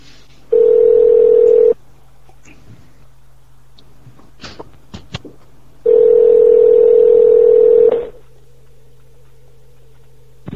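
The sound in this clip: A telephone line tone on an outgoing call: two long, steady, even-pitched beeps separated by a pause holding a few soft clicks, with a quiet low hum underneath throughout.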